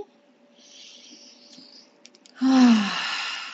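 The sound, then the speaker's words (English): A deep breath: a faint, airy inhale, then a louder, breathy exhale carrying a low voiced sigh that trails off. “We take 3 deep breaths as we start to come back.”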